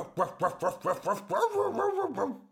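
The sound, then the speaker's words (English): A person imitates a dog barking, voicing a quick run of evenly spaced woofs that gives way to a longer, sustained barking sound at moderate volume. “The dog barked,”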